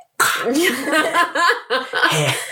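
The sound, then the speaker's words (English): A voice imitates a weak, failed attempt at a burp made to annoy someone: a few short, croaky voiced bursts in quick succession, fairly loud and uneven. “I would be the kind of burp where you like try really hard to burp, like to try to annoy someone, but it just comes out like”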